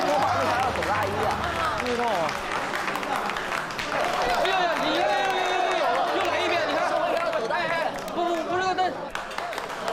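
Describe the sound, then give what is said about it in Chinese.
An audience applauds to welcome four directors, steady clapping and crowd noise running throughout with voices mixed in. “让我们以热烈的掌声隆重的欢迎四位导演。”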